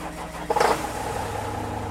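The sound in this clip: A pickup truck's engine starts before driving off in the dark: a short burst of cranking and catching rises out of a low hum, then settles into a steady, fairly faint idling rumble.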